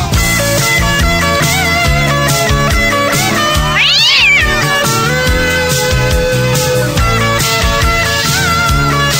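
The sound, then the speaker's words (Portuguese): A cat's meow, a single drawn-out, rising-then-falling call, rings out over loud, continuous dance music from a live DJ set. “Égua do gato enjoado.”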